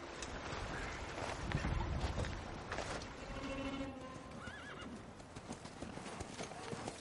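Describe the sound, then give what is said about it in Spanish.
Hooves clip-clop as two horses are ridden up to a hilltop overlooking a small village in a frosty wilderness. The steady, moderately loud hoofbeats are joined midway by a horse's whinny. “Bridger y Fitzgerald, a lomos de dos caballos, llegan a una loma desde la que se ve una pequeña aldea.”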